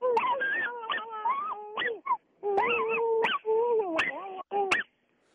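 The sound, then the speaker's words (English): A dog whimpers and yips in long, wavering, high-pitched cries, coming in several bursts with short gaps and a few sharp yelps between them, fairly loud throughout. “That's the dog.”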